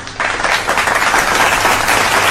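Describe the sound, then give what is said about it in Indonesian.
Steady crowd applause, a dense, continuous patter of many hands clapping that stays fairly loud and even from start to finish. “Tepuk tangan.”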